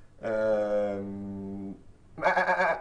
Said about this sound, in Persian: Cow. Cow. That's a sheep. They eat it also.